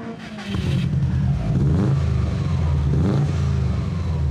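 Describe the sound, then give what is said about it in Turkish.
A 325-horsepower car engine starts up and revs, a deep, throaty roar that holds loud and swells upward in pitch in short bursts. “İnanılmaz derecede güçlü bir motor. İnanılmaz iyi sürüyor. Başlayabilir miyim? Evet, devam et.”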